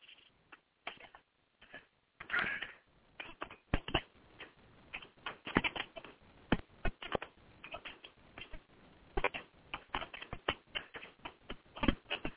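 Quick clicking of keys as someone types out a note to keep from forgetting it, many crisp taps in irregular bursts with brief pauses between them, heard alone without talk.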